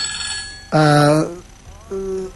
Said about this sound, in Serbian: evo u ovom trenutku mobilnik koji zove, prekida i ne mogu da pročitam.